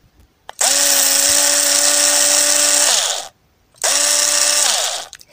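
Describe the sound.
A cordless screwdriver runs in two bursts, a long one and then a shorter one. Each is a loud, steady, high motor whine that drops in pitch as the motor spins down, with a brief pause between them.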